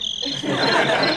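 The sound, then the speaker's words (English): A cricket noisemaker toy chirps with a steady, loud, high-pitched trill that runs unbroken through the whole short clip, heard alone. “I brought my, my cricket noisemaker.”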